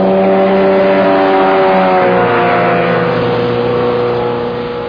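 Motorboat engine roaring during a boat chase: a loud, continuous droning whine with a rich buzzing tone whose pitch shifts slightly, easing a little in volume toward the end.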